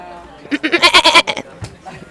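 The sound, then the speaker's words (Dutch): A person imitates a goat's bleat with a quavering, pulsing run of nasal tones that rises to a loud burst and then trails off, followed by a brief faint vocal sound. “kun je nog één keer die geit doen?”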